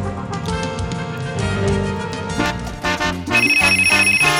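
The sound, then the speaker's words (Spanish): A telephone bell rings as part of a musical jingle for a radio contest, a bright trilling ring rising over the tune toward the end. “Siempre tempranito, ring, ring. Óyelo sonando. Ring, ring.”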